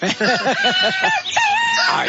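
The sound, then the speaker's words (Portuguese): Rooster crowing played as a sound effect, loud and alone: a run of quick, bouncing harmonic calls, then a longer, strained crowing note held at a high pitch. “Pode botar o canto do galo aí. Canto do galo? Galo cantando. Galo cantando. Galo cantou.”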